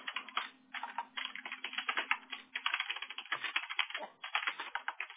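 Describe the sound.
Typing on a computer keyboard while filling in a Google Guaranteed application. Rapid keystrokes clatter in a steady stream, with short pauses near the start and just after the middle.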